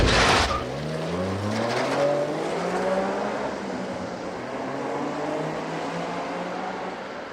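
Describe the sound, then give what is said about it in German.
Engine of a green Wartburg car pulling away onto the road, a steady droning motor whose tone climbs as it gathers speed, with no voices. “und schieben den tschitscheringrünen Wartburg rückwärts auf die Straße. Erinnerung ist manchmal Handarbeit. Aber jetzt, endlich, fahren wir vorwärts Richtung Grenze.”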